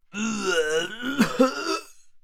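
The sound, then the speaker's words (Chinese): A voice imitates someone dry heaving and retching on the ground: a drawn-out strained groan is followed by a few harsh gagging bursts that then trail off. “我忍不住趴在地上拼命干呕了起来”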